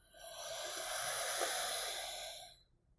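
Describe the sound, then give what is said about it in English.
A slow, deep breath in, a steady airy hiss that swells gently, holds for about two seconds and then fades out, quiet and heard alone. “Breath number two. Another slow, deep breath in.”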